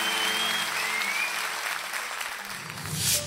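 Applause from an audience, a fairly soft, even wash of many hands clapping that runs steadily through the whole short stretch.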